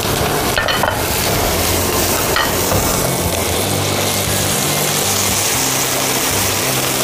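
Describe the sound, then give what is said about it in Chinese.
Food deep-frying in hot oil until crisp on the outside, giving a loud, steady, dense sizzle that fills the whole stretch without pause, with no voices. “这次是要让它炸到 外面酥脆， 酥脆，同时不吃油。”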